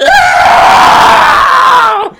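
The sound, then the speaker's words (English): A man screams in one long, loud, strained cry as liquid marshmallow goop falls on him. The pitch stays steady, then sags and cuts off at the very end. “And he's screaming when it falls on him.”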